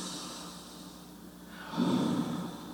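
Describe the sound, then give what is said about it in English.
People taking a deep breath and letting it out as a relaxation exercise, a soft airy inhale followed by a louder, breathy exhale, with no talking. “I want everybody to take a deep breath and just let it out. Come on, do it again.”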